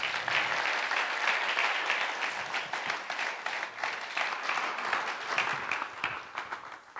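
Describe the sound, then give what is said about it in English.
A church audience claps to welcome guest speakers at a Sunday service. The applause is dense and continuous for about seven seconds and eases slightly toward the end. “So let us welcome them with a hand.”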